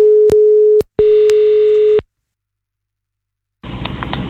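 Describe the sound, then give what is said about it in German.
Phone line tones while calling someone back: a steady low electronic tone sounds twice, first briefly and then for about a second, with sharp clicks, followed by silence and then a hiss of line noise. “Dann machen wir Folgendes. Ich rufe dich gerade mal zurück.”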